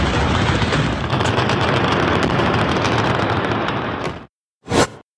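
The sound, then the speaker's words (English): Heavy gunfire with blasts during the Turkish attack on the Syrian border town of Tal Abyad: a dense, loud, unbroken barrage of rapid shots for about four seconds, then a brief silence and one short, sharp burst. “This video, obtained by ABC News, appears to show the fury of the Turkish attack on the border town of Tal Abyad 2 nights ago.”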